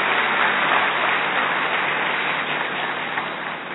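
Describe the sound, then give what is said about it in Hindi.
An audience claps loudly to welcome an honoured guest at a gathering, a dense, continuous clatter that holds steady and tapers slightly near the end. “हम जोरदार करताल ध्वनि से उनका स्वागत करते हैं।”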